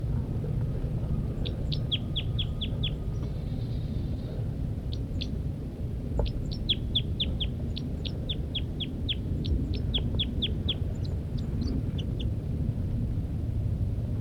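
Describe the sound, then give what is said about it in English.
A female bird gives flight calls from its nest: many short, high chirps in quick bursts of several notes, repeated throughout over a steady low background rumble. “The female continues to give flight calls from the nest.”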